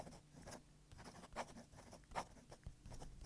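Pen scratching across paper while a letter is written by hand, with soft irregular strokes and a few sharper scratches standing out. Faint and steady throughout, with no voices.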